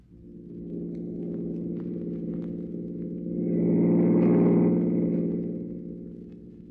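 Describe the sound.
A car engine drones while driving in city traffic, a low steady hum that swells louder through the middle and then eases off again.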